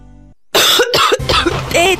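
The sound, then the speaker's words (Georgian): A person coughing in a run of loud, harsh, throaty hacks with short gaps between them, after a brief low tonal hum. “მაშინ როდესაც ხმა ჩაგეხლიჩა, ყელი ტკივა და გახველებს”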